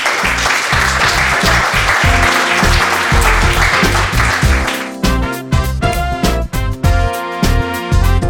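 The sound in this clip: A live audience applauds the guest at the close of a talk event, with a dense, loud wash of clapping that gives way to music after a few seconds.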